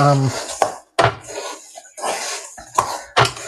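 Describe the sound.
Spoon clattering and scraping in a big mixing bowl as nut loaf ingredients are stirred together: a few loud bursts of clacking and scraping, separated by short pauses.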